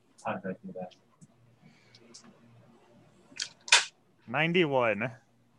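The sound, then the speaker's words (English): A few sharp, clacking clicks of percentile dice, a D100, being rolled during a tabletop role-playing game, bunched together in the middle with people talking before and after. “Roll, if you're gonna keep drinking until you are drunk, roll me a D100. Oh. Percentile dice.”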